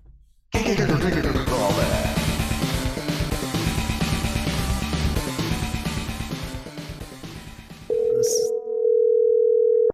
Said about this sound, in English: I think it's time to give him a call back.